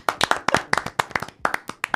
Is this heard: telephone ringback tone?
no